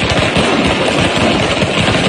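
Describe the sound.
Rapid crackling barrage of fireworks set off by football fans outside a hotel in Mexico City, a dense, loud, continuous stream of pops with no pauses.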